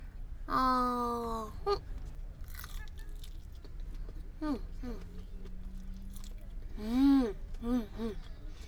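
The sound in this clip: Chewing and biting on yakisoba and a frankfurter at a festival, with soft, moist, crunchy bites mixed with hummed, pleased voice sounds.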